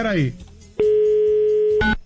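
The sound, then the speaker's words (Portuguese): A telephone dial tone sounds as a call is being placed. It is a steady, unbroken hum lasting about a second, with a brief burst of voice just before it and another just after. “Faz tempo que eu não falo com a Manja Xana, já vou ligar pra ela.”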